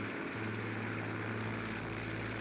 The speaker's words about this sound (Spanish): Está fallando el motor. Yo estoy sobre las montañas y no puedo aterrizar. Tal vez será mejor que apriete un poco más el acelerador y vea si puedo hacer que el motor funcione mejor.